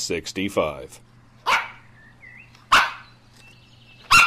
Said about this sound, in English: It's the dog days of summer, so I've surrounded myself with dogs to bring you the latest Big Scary Show